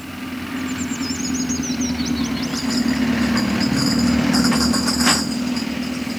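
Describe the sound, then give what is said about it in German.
Engine rumble of a Coca-Cola delivery truck taking a curve: a low, continuous drone that swells slightly partway through and holds steady, with no talking. “Der Wagen von Coca-Cola. Gottlob nimmt er die Kurve immer sehr behutsam.”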